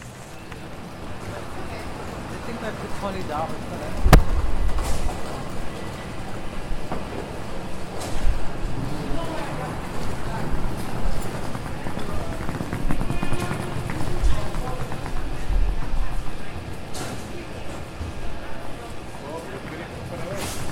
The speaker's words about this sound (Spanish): Found listener from Washington, United States, playing nearby sound, North Capitol Street, Washington, D.C., USA, Union Station Metro by WGON.